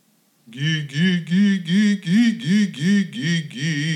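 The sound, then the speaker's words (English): A singer demonstrates the dopey vocal exercise sound: a steady run of repeated, rounded, hollow-toned syllables on a low-pitched voice, each swelling and dipping in an even rhythm after a brief silence. “you should discontinue using the dopey sound. It sounds like this.”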